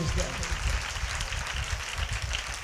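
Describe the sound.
An audience claps hands together in a worship service, a dense run of low, thumping claps in a loose rhythm, with a voice speaking over it.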